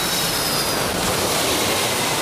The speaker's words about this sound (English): Aviation Quest to Sea 101, cleared for takeoff, 27 left. V1, rotate.